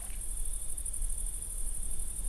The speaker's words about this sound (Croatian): Zrikavci su zapravo zvuk zvijezda. To nisu kukci.